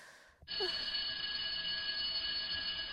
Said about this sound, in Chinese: 下课铃响了，儿子应该放学了，要赶紧赶过去。